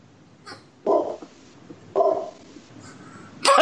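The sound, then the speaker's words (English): A dog barks in an agitated outburst: three loud, sharp barks spaced about a second apart, with a fainter yelp before the first, over low background noise. “That was my dog flipping out.”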